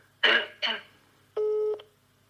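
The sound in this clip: A telephone call being placed: two short throat-clearing bursts, then a single clear electronic phone tone that holds for under half a second.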